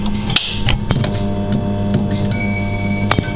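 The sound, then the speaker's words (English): Steady low 50 hertz mains hum from wall-mounted fluorescent lights switched on, a constant electrical buzzing drone with a few sharp clicks scattered across it. “Actually, I think the one on the other side, we've actually got them on both walls. Get the 50 hertz hum going.”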